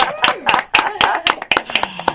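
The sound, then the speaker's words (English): A quick, regular run of sharp hand claps, each one crisp and distinct, evenly spaced like a short burst of rhythmic applause, with a faint voice beneath. “That's a round of applause”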